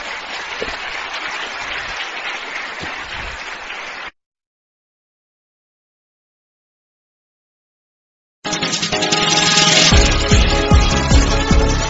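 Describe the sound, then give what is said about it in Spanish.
Applause from an audience at an evangelistic religious gathering: steady, dense clapping for about four seconds that cuts off abruptly into silence, followed several seconds later by loud music. “Un aplauso al Señor.”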